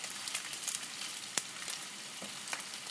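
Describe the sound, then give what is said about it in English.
Narrow beef patties, like little beef burgers, sizzle while frying: a steady, bright crackling hiss with a few sharper pops scattered through it. “I'm just been cooking the top and the bottom like you're cooking. It's basically like they're little beef burgers, but they're narrow”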